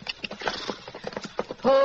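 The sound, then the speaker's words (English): Horse hooves clip-clopping, a quick, uneven series of light, hollow knocks close together, with no voices over them. “That horse doesn't belong at the center. Wonder whose it is.”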